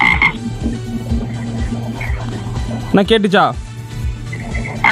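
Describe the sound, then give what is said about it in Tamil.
A frog croaks in a steady, rhythmic series of low, loud pulses. A person briefly speaks over the croaking partway through. “இது தவக்கலை. தவக்கலை.”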